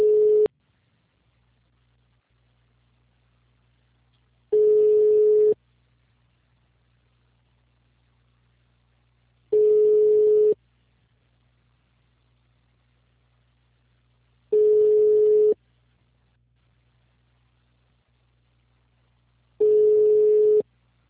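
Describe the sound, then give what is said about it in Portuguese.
Ringing tones of a telephone call being placed: five steady, mid-pitched tone bursts about a second long each, evenly spaced several seconds apart, with a faint low hum running between them. “Segura aí rapidinho, vou fazer uma ligação aqui.”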